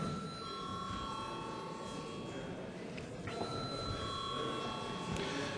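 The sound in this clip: The chairman's electronic bell rings in the Latvian parliament: two long, steady, high ringing tones separated by a short gap, faint throughout.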